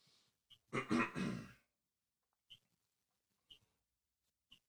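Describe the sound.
A person clears their throat once in a short, rough burst, followed by near silence broken only by a few faint ticks.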